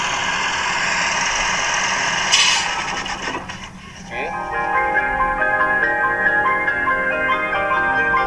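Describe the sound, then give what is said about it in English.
A car engine runs with a hydrogen (HHO) generator hose attached, giving a steady, broad mechanical hum and whir. The drone briefly dips in level midway, then returns to a steady running tone. “when we are going to detach this one, this hose, the engine will stop.”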